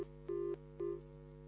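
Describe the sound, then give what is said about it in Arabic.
A telephone call connects on the line with two short, steady beeps over a low, constant hum, all quite faint. “معنا اتصال.”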